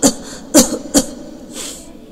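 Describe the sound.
A man coughs in a short fit: three harsh, loud coughs in quick succession, then a softer, breathy exhale.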